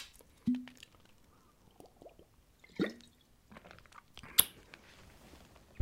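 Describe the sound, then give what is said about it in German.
A person takes a small sip of a drink while sweaty and dry-throated, making a few faint, isolated wet mouth clicks and swallowing sounds separated by quiet pauses, with no talking. “jetzt bin ich völlig durchgeschwitzt und mein Hals ist trocken. Ich trinke mal einen kleinen Schluck.”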